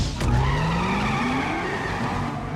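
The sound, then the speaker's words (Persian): A car revving hard and pulling away with squealing tires, the engine note rising steadily in pitch over a continuous loud roar of skidding rubber. “ماشین رو روشن کن، برو. نه نه نه نه نه نه نه، روشن شو، روشن شو.”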